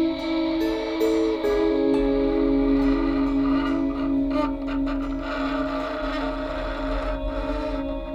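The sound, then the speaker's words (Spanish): Train wheels squeal on the rails in a steady, shrill metallic whine with several layered tones. It holds through the whole stretch over a low rolling rumble. “Me avisabas cuando las ruedas chirriaban en las vías.”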